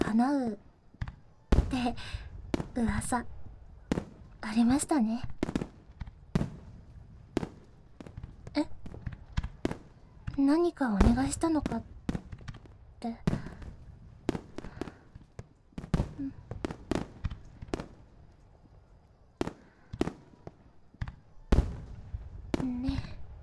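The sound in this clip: Festival fireworks crack and pop in many sharp, irregular bursts, some clustered and some spaced apart, fairly faint overall, with a voice speaking between them at points.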